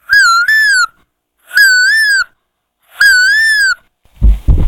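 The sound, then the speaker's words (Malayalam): A person imitates the call of a koel, a cuckoo, with the voice, giving three loud, clear whistling hoots with a wavering tone, the first broken into two parts, followed by a brief rough noisy burst. “ആദ്യമായി നായ്ക്കുട്ടി. ഇനി കുയിൽ.”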